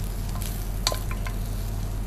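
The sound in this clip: Onions frying in a pan give off a steady sizzle with a few sharper crackles and pops rising above it, over a low constant hum and with no talking.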